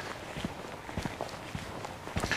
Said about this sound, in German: So, jetzt laufe ich wieder Richtung Moor. Und da geht so ein kleiner Pfad, schlängelt sich da durch,